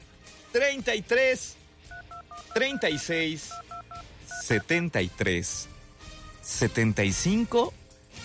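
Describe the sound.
Telephone keypad tones dial a number in a quick series of short paired beeps, set between loud bursts of voices and music that come before and after.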